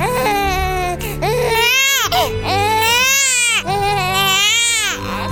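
A newborn baby cries just after birth in loud, shrill, sustained wails, about three long cries separated by brief gasps for breath.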